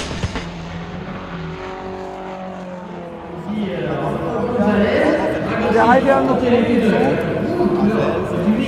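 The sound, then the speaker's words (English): Race cars in an open motor racing pit lane on a Friday afternoon, with a steady engine drone that swells louder partway through, mixed with the chatter of people nearby. “The international sound of international motor racing. We're in the pit lane, open pit lane, on a Friday afternoon”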